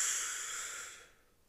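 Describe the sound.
A deep breath drawn in during a guided breathing exercise, heard as one soft, airy hiss that holds for about a second and then fades out, fairly faint and alone.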